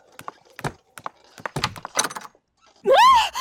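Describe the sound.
A door thought to be locked is opened: a run of uneven knocking thunks and rattles, then a louder, drawn-out wavering sound at the end.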